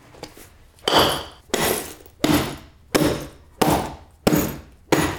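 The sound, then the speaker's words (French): Seven heavy smashing bursts, evenly spaced, each ending in a crunching decay, as a real glass bottle is broken for a performer's act of lying on glass. “pour vous prouver que c'est du vrai verre, on va casser une bouteille.”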